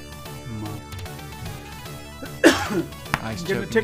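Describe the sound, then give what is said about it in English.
Coughing and throat clearing after choking on ice: a few harsh, loud coughs break out partway through, with raspy clearing between them, over steady background music. “Ice choked me. Getting a tickle back in my throat.”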